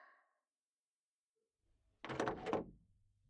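A door is opened in a quiet home: after near silence comes one faint, short wooden clunk with a soft rattle.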